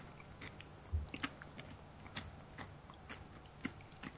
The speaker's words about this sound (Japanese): これ、昆布うまそうに食べてますこれ。 パクパクって食べてるよ。